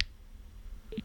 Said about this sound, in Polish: To jest dźwięk na wyciszenie.